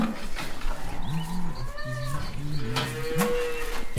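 Several farm animal calls in a cow barn in the morning, a series of short harmonic lowing or bleating cries overlapping and following one another at a moderate level, with no talking.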